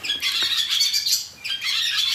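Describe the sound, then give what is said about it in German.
Barn swallows chatter at dawn in a dense, continuous twitter of high chirps and squeaky notes, dipping briefly mid-clip before the busy calling resumes. “Ich glaube, das sind die Rauchschwalben”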